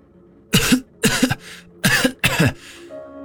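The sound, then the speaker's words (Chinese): A pale man with a tight chest coughs harshly in four loud, separate bursts that are fairly evenly spaced, with quiet between each fit. “江瑶捂着胸口，脸色苍白地咳嗽着”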